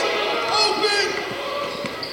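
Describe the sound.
A basketball is dribbled on a court, its few soft bouncing thumps running under a continuous excited voice calling the game play by play.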